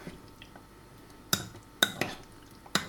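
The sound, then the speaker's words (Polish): A spoon gently stirs cucumber salad with sour cream in a high-sided bowl: soft, wet, faint mixing broken by four sharp clinks of the spoon against the bowl. “Delikatnie łyżką całość mieszamy ze sobą.”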